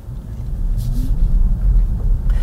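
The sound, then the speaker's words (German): An electric Tesla Model Y Long Range with all-wheel drive pulls away after the drive selector is set to D, giving a low, steady rolling rumble with a faint tonal hum underneath. “Und mit dem Tesla Model Y kann man auch fahren. Und zwar gar nicht so schlecht. Also Fahrstufenschalter am Lenkrad auf D und los geht's.”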